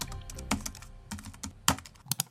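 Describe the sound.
Keystrokes on a computer keyboard as letters are typed, a quick uneven series of sharp clicks, some louder than others, with no voices.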